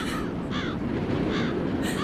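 Crows cawing over a corpse, several harsh caws repeating at uneven intervals over a steady, noisy background.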